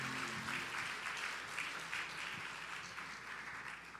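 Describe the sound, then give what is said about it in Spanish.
Church audience applauding during a service, with dense, continuous clapping held at a faint, even level for the whole stretch and no voices. “Y está dando un aplauso al Señor por el hermano pastor Carlos Paniagua, por favor.”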